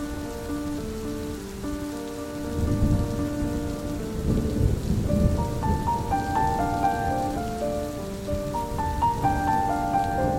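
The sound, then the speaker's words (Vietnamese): Heavy rain pours in a dense, steady hiss that grows louder after the opening seconds, with soft sustained musical tones running underneath. “Trời hôm ấy mưa càng thêm nặng hạt.”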